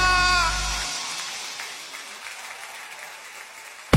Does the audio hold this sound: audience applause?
yes